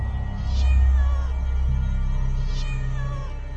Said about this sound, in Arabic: وطلعت من الاوضة بتاعتي قطة سودة